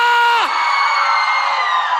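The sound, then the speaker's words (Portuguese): Crowd in Maceió shouting and cheering in a loud, sustained roar that holds steady throughout, with a held tone sliding down in pitch near the start. “Coisa linda. Cadê o grito da galera?”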